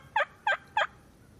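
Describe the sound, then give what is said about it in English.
Three short, evenly spaced turkey gobbles from an online video, each a quick warbling burst separated by brief silences, fairly faint. “Let me look up a turkey noise. Turkey gobble.”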